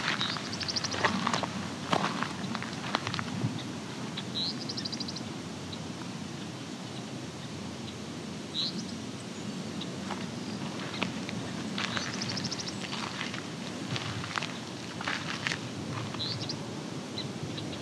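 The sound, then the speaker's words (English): Song sparrows give faint, brief, high tink calls, a few scattered chips over a steady outdoor field background with low rustling. “Also little tink calls you might be hearing. Those are song sparrows.”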